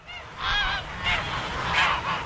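Geese honk at a large goose farm in rural southeastern Brandenburg, Germany, a loud, overlapping chorus of nasal calls rising in a few bursts over a low, steady rumble.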